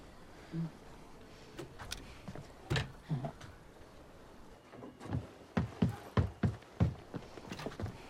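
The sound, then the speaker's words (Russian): A jammed door lock being worked open: scattered clicks and knocks, then a quick run of about six sharp metallic clacks near the end, fairly faint overall. “Замок что-то заело, сейчас.”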